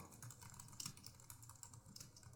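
Typing on a computer keyboard: a fast, steady run of many faint key clicks with no voices.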